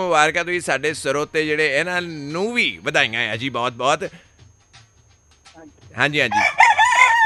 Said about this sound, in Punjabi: ਤੇ ਉਹਨਾਂ ਦਾ ਉੱਠਣ ਦਾ ਵੇਲਾ ਹੋ ਗਿਆ, ਤਾਂ ਕੁੱਕੜ ਕੁੱਕੜ ਕਰਦਾ ਪਿਆ ਜੀ।